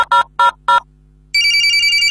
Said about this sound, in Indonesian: Kita telepon selangsung deh. Pencet nomor HP nyo.